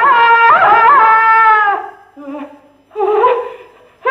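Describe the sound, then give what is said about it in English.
A contemporary vocal piece: a solo voice holds a long, wavering sung tone with vibrato, then after short pauses lets out two clipped, cartoon-like vocal bursts. “a contemporary music piece called Stripsody”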